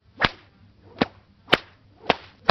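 Whip cracks, the blows of a whip driving a sled dog team: four sharp, loud snaps at an even, steady pace, with nothing else heard.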